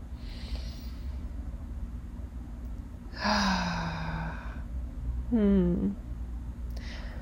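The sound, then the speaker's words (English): A deep breath released as a voiced, sigh-like exhale, then a second, shorter voiced breath sound, both over a steady low hum. “Nice deep breath.”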